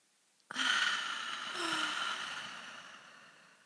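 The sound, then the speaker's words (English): A group takes a deep breath together during a guided breathing exercise: one long, airy rush of breath that begins abruptly and slowly fades away over about three seconds. “And let's all do a deep inhale and hold it at the top.”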